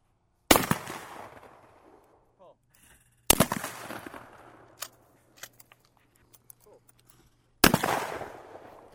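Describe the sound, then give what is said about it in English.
Three loud, sharp shotgun blasts at a weekend skeet shoot, widely spaced, each ringing out and fading slowly before the next. “I'm out at the Watertown Sportsman's Club's weekend skeet shoot.”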